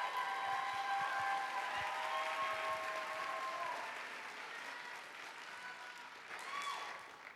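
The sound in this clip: Soft, steady applause from an Ignite talk audience welcoming the next speaker, a few whistles riding over the clapping before it eases to a lower level, then briefly swells again near the end.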